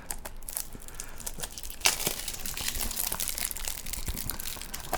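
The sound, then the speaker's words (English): Crinkling and tearing wrapping as a wrapped movie is unwrapped: a steady, busy rustle for about five seconds, with one sharper rip near the middle. “Look, I'm going to take the honours here and unwrap this...”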